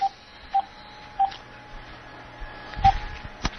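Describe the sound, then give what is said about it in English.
Telephone keypad tones as a call is placed to a city council office: four short, clear beeps at uneven intervals, then a couple of soft low thumps near the end. “But we're dialing now.”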